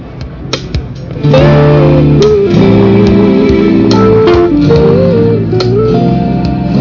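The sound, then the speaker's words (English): Cheesy synthesized strings made in GarageBand play a short lick: loud, sustained notes that step up and down in a simple melody, with sharp percussive hits scattered through it. “And then I put some cheesy strings and I played the lick and it sounds like this.”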